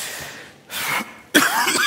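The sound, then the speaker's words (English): Harsh, hacking coughing from a person who has been fighting a cough for a couple of weeks: two separate bursts, the second louder and rougher, with no talking. “I've been fighting a cough for a couple of weeks. So if I start hacking it up, your grace will abound.”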